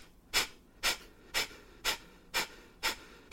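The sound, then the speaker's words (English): Forceful rhythmic breathing from a breath-work exercise, with sharp, airy bursts spaced evenly about twice a second in a steady series and no talking. “if you don't like breath work, just skip ahead in like 30 seconds. Yeah, but if it sounds like this, this is how you know you're doing it right.”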